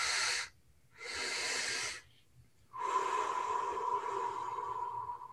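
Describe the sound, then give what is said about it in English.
Breathing exercise: two sharp airy inhales through the nose with a short gap between them, then one long breathy exhale through the mouth that carries a faint whistling tone, alone with no talk. “inhale through the nose, exhale through your mouth. Exhale through your mouth, just a long exhale.”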